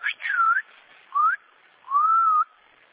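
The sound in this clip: A few sharp human whistles, a dog owner calling off a barking dog, ring out alone: two quick bright blasts, then a shorter one, then a longer steady note.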